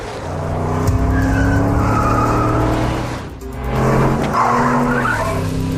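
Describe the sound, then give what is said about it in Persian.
A red Dodge minivan speeds through an intersection, its loud engine roaring steadily with tire squeal mixed in. The roar dips briefly midway, then surges back to full strength. “یه مینیون دوج قرمز همین الان از تقاطع خیابون سوم و خیابون پایین با سرعت بالا رد شد.”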